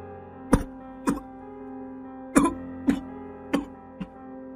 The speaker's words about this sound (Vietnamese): Những tiếng ho sặc sụa vang lên